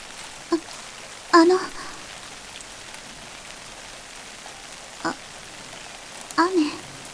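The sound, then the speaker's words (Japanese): Rain falls as a steady, soft hiss throughout, broken by a few brief, louder sounds. “雨はお嫌いですか？”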